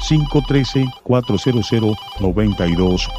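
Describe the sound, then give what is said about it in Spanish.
A telephone rings with an incoming call to a Spanish-language radio call-in show, sounding as three loud groups of rapid, evenly pulsed electronic tones separated by short pauses. “Tenemos ya una nueva comunicación. Vamos a agarrar esta llamada.”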